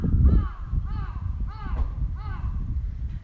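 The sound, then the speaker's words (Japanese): Crow cawing near a horse: a series of about four hoarse caws rising over a constant noisy, rumbling background. “カラス鳴いてる。”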